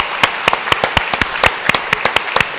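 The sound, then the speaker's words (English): Applause from an audience on its feet: many sharp claps over a steady wash of clapping, loud and continuous throughout. “And people are on their feet and applauding for Louis Braille”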